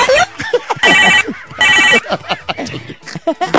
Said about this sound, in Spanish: ¡Qué feo timbre el teléfono, ¿verdad?